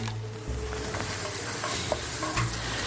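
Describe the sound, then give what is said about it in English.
Chopped onions, about a cup dropped into a hot frying pan, sizzle with a steady, dense crackling hiss that runs the whole way through at an even level, with a low hum underneath. “once the onions hit the pan, I like to add a healthy pinch of kosher salt right at this point. So we put about a cup of these onions in.”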